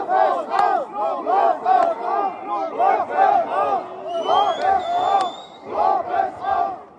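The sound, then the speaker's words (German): Thousands of protesters chant loudly outside ThyssenKrupp's headquarters against the company's steel production plans. The voices rise and fall in a steady, repeated rhythm for the whole stretch. “So klang das zwischenzeitlich mal vor der Konzernzentrale, wo tausende Menschen gegen ihre Pläne, aber auch, das ist, glaube ich, neu bei ThyssenKrupp, auch sehr hart gegen sie persönlich protestiert haben.”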